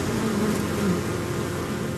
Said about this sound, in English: this looks like a work of art right here. Sort of on this frame, bees climbing on top of other bees, these clusters of bees perched on their honeycomb.